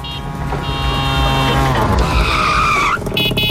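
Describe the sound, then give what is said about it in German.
A tuk-tuk roars through as a radio jingle effect, its engine whining and climbing in pitch amid screeching, squealing tires. The loud, busy burst carries on for about three seconds, then breaks briefly before a last flourish. “Jedes Mal, wenn das Tuk-Tuk durchs Programm fährt”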